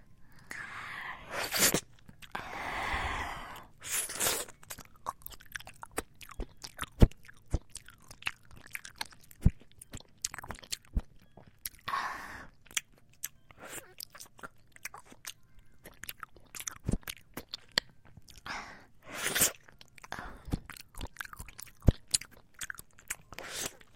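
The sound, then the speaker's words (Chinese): Chewing of strawberry-flavoured jelly: many soft, wet mouth sounds and small squelching bites in an irregular stream, with a few louder smacks, fairly quiet and without talk. “这个果冻好像是草莓味的。是不是跟我一样的甜啊？”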